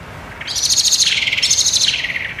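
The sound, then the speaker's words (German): A blackbird's scolding alarm call, given when disturbed: a rapid, high, buzzy chatter of pulsed notes that dips lower briefly midway before rising again, loud and alone. “wenn quasi sich eine Amsel von Menschen gestört fühlt oder auch, glaube ich, von Artgenossen, es ist schon recht ähnlich. Dieses Schimpfen, ich finde das so süß”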